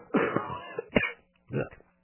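Someone coughs and clears their throat in a few separate harsh, raspy bursts with short silent gaps between them. There is no speech.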